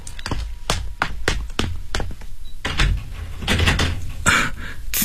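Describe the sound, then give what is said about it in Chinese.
A door is opened to let a police officer in, with a quick series of sharp clicks, taps and thunks from the handle and latch. The sounds are fairly faint and come in an irregular run. “我去开门。”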